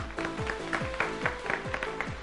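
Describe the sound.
A group applauds after a correct answer in a quiz game, producing dense, steady clapping with a few voices and squeals mixed in. It is moderate in level and lasts about two seconds.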